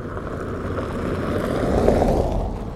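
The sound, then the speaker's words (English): A white pickup truck drives by, a broad, steady rumble of engine and tyres that swells toward the latter half of the pass and then eases slightly. “This white pickup drove by me.”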